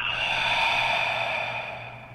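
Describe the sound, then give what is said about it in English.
A huge breath exhale during a breathing exercise, heard as a steady, airy rush of breath that holds for about two seconds and then gradually tapers off, with no talking. “And one more time. Huge exhale.”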